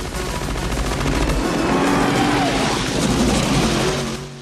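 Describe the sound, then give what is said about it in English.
Loud, rough engine roar of a Jeep on huge pneumatic tires driving over a dusty hill, a dense rattling drone that holds steady throughout without clear breaks. “A Jeep with huge pneumatic tires comes over a dusty hill.”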